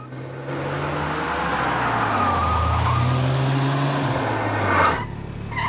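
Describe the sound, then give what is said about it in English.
Engine of a car speeding along a coastal road and turning into a car park: a steady, fairly loud drone whose pitch wavers, swelling briefly near the end before easing off. “Alex and Claire speed along a coastal road, then turn into a car park.”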